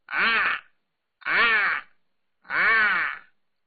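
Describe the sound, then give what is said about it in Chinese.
Crows caw three times, each a harsh, drawn-out call about half a second long, evenly spaced and heard alone with silence between them. “耳边突然间传来了几声乌鸦声”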